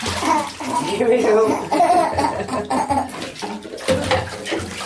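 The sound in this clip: Water runs and splashes in the bath of a child with Angelman syndrome, a steady gushing wash with uneven splashes throughout while voices talk over it.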